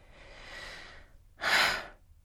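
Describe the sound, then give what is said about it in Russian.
Snoring from a man in the next room: two loud, breathy rasping breaths, the first long and drawn out, the second shorter and stronger after a brief pause. “Вот в соседней комнате господин Кантагрюхин храпит как неблагородно.”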